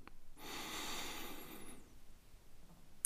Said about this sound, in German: Also atme einfach mal ganz normal aus und beim nächsten einatmen, ganz tief Luft holen.